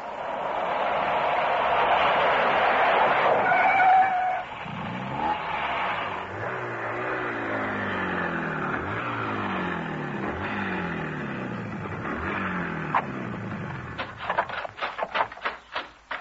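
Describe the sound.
A car slows and pulls over. A loud, broad engine roar gives way to wavering engine tones as the car decelerates, ending in a few sharp clicks and knocks.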